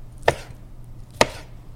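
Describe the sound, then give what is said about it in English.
A knife slices cooked sausage into bite-sized pieces. Two crisp cuts land about a second apart over a faint low hum. “And then remove the sausage, drain it if need be, and slice into bite-sized pieces.”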